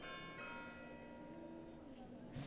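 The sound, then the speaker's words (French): Church bells ringing the hour on a street, sustained overlapping metallic tones with long ringing overtones, steady and fairly quiet over a low background hum. “Et maintenant, il y a aussi les cloches. Je pense qu'il indique que c'est 19h.”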